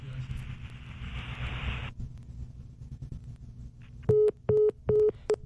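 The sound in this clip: A telephone busy tone sounds after a caller hangs up. About four short, steady, mid-pitched beeps repeat in an even rhythm, following a stretch of hissing line noise.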